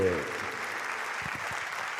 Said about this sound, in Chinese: 哎，感谢你的掌声，谢谢。